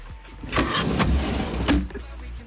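A drawer being pulled out of a wooden desk: jerky sliding and scraping noises, with a few sharper bursts in the middle, fairly faint and heard alone.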